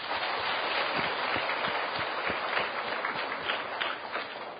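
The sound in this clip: Applause breaks out among attendees of a Buddhist Dharma talk at a one-day retreat during the Vu Lan season, a dense, sustained patter of many hands clapping that carries evenly throughout.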